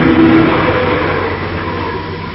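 A car engine revs while driving, a loud, steady mechanical roar that fades slightly toward the end.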